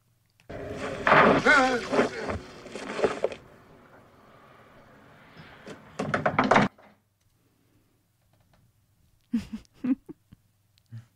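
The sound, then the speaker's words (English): A few dull knocks come near the end, the sound of someone knocking in a 1980s horror film. They follow louder, voice-like stretches and a quieter gap. “Do you want me to tell you what that is? Yes. It's someone knocking. Play it again.”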